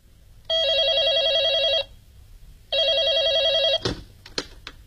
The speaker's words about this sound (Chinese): 快给酒店挂电话吧啊。